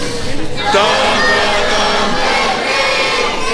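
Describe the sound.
A large audience in Mexico sings and shouts at full volume, a dense, continuous roar of massed voices that stays loud throughout with a slight surge near the start.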